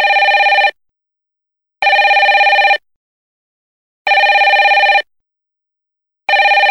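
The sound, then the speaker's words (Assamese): A telephone rings unanswered in four electronic bursts of about a second each, separated by steady gaps of silence. The last burst is cut off at the end. “Alok ফোনটো নধৰকৈ কিয়?”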